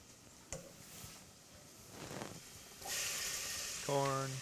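Corn frying in a pan of olive oil and butter with garlic and onions, giving a faint, soft, steady sizzle that swells noticeably louder and hissier in the second half.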